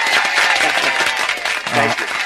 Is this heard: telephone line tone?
no

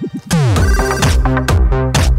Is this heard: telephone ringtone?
yes

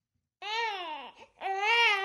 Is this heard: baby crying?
yes

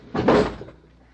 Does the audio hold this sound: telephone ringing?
no

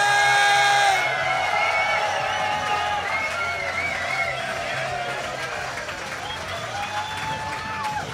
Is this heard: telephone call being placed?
no

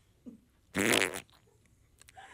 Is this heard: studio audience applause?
no

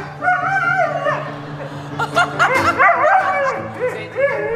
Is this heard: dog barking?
yes

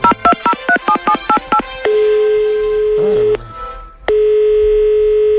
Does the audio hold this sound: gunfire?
no

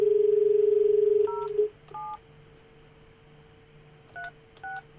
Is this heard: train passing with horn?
no

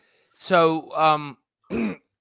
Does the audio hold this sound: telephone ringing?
no

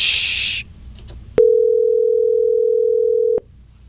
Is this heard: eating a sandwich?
no

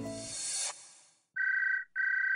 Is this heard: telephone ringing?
yes

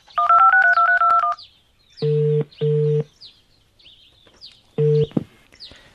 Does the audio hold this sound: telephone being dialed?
yes

